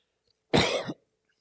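A single harsh cough with throat clearing, caused by an irritation at the back of the throat. It is one rough burst of under half a second, alone in silence.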